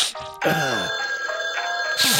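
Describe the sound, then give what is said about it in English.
Telephone ringing, a bright, loud electronic ring with layered tones that holds steadily through almost two seconds, with no talk over it. “Answer the fucking phone. Pick it up.”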